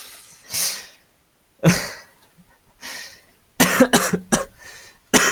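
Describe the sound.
A run of coughs from a person, alone with no talk: a few separate harsh coughs spaced apart, then a rapid cluster of sharp coughs near the end and one final cough.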